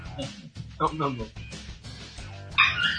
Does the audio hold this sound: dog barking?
yes